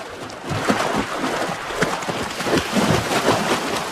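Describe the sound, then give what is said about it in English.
Moose cows splash through water as bulls chase them, giving many irregular splashes and thuds that run together at a fairly even, moderate loudness, with no talking. “Cows splashing through water as bulls chase after them.”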